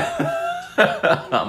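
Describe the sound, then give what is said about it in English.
Throat clearing in three short, rough bursts, preceded by a brief, low, voiced hum. “I've cleared my throat.”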